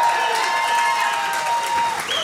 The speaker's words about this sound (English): Let's have a cheer for Vodafone, who've helped us put today on.